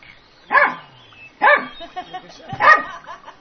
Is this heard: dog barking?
yes